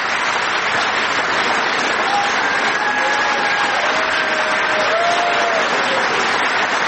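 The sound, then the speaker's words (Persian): Applause from a large audience, dense and continuous clapping that holds at an even, fairly loud level for the full seven seconds. “خب تشکیل گسترده یه حضار رو میبینید.”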